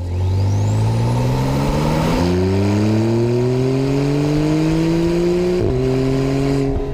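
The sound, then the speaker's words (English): A Porsche 911 Turbo engine accelerates hard, its loud note climbing steadily. A faint high turbo whine rises as it spools up at the start, and pitch dips briefly at two gear changes. No one speaks. “Here's a Porsche 911 turbo.”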